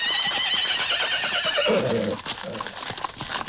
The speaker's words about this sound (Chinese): 马车停了下来